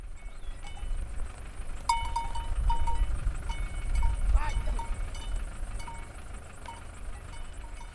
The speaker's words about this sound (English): That was the sound of Maasai cattle going out to graze.